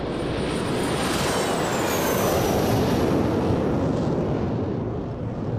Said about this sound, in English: The plane carrying Green, Beam, and a black agent with a beard takes off.